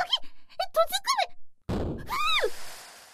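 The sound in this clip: A weak blast trap goes off and bursts a door open with one muffled thump. A short noisy tail follows, and expressive voices talk before and after it.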